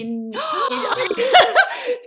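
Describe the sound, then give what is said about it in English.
Two people gasp in surprise, a quick cluster of breathy, voiced gasps and excited exclamations that rise and tumble over one another, fairly loud and lasting about two seconds. “cue double gasp. Well done, you two.”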